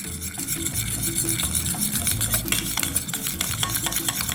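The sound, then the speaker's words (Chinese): Stirring of a batter of crispy frying powder and water in a container: a steady, continuous run of wet scraping strokes with many quick clinks of the utensil, moderately loud and unbroken, with no voices. “好，这是酥炸粉。好，然后呢再加一点点的水。 好， 好，搅拌。”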